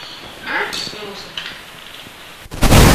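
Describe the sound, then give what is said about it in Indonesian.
Video game gunfire aimed at an enemy: heavy booming shots, then a loud sustained burst near the end, with people talking over the action. “Ini musuhnya. Ada musuhnya tembak. Ayo. Tembak musuhnya.”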